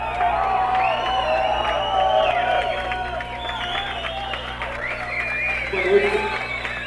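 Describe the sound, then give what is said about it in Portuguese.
A concert audience cheers and calls out while waiting for an encore, many overlapping voices with whoops and shouts rising above a steady low hum. “O público não se retira, continua aqui esperando um bis, mas não acho que não vai ter bis nenhum.”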